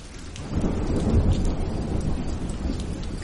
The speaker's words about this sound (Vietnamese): Đúng vào lúc này, một luồng sét đỏ quạch rạch ngang bầu trời phóng xuống.